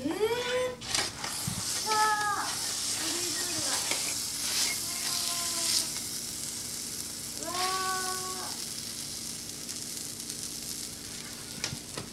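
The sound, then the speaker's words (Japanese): Marinara pizza topped with garlic sizzles as it finishes baking, a steady crackling hiss that runs throughout while people talk over it. “お、できた、あ、できた、もうできた、 ブチブチ言ってます。 あ、いい香りがします、はい、また綺麗な焼き目がついて、すごい。というわけで、はい、マリナーラあっという間に完成です。”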